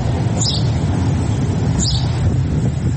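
A bird calling outdoors: two brief high chirps, well apart, over loud steady rumbling wind-like noise.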